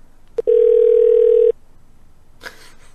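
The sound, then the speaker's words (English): A telephone call rings out with a single steady, low-pitched ringback tone lasting about a second. A click comes just before it, then quiet and a faint, brief rustle follow. “Let me try Kathy. Maybe Kathy will pick up.”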